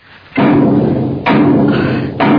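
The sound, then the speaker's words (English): A heavy old door knocker bangs three times. Each blow is a booming knock with a sudden onset and a long, dense resonance, and the knocks come at a slow, even spacing. “That awful knocker.”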